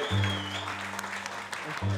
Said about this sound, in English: They just clapped for you and you didn't even know it.